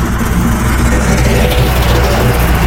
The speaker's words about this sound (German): Ja, also das ist der Schneepflug im Winter, wenn der Schnee schön auf die Seite geschoben wird.